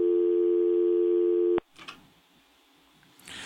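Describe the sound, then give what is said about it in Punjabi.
Steady telephone tone after a call disconnects: one continuous, buzzy, mid-pitched tone holds for about a second and a half, then cuts off abruptly, leaving only faint background noise and light rustling. “ਤੁਹਾਡੀ ਕਾਲ disconnect ਹੋ ਗਈ”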